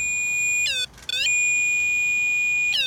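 A ghost-detecting energy meter, about the size of a TV remote, gives off a few brief bursts of warbling electronic chirps over a thin, constant high-pitched whine.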